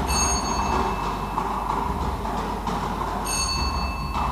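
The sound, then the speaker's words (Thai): Spinning of a circular lottery drawing drum at a prize draw, a continuous rattling clatter with faint ringing tones, steady and unbroken throughout. “จะได้ทำการหมุนอุปกรณ์วงกลมเป็นครั้งที่4”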